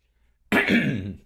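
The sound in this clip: A single loud, rasping throat clearing with a cough-like burst, lasting under a second after a stretch of near silence, with no talking.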